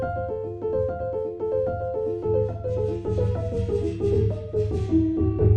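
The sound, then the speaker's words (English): Synthesizer playing an F major chord with its condition slider at maximum, giving a steady, loud stream of rapidly shifting pitched notes over a sustained low tone. “And I'll keep playing an F major chord like this. And I'll turn the condition slider up. And as I turn it up to 10, which is the maximum, you'll hear what happens.”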